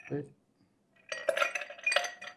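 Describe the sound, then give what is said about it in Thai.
Ice clatters into a chilled cocktail glass before gin is added, a dense run of bright clinks and rattles that builds and lasts just over a second after a brief quiet pause. “เทน้ำแข็งไปก่อนนะครับ”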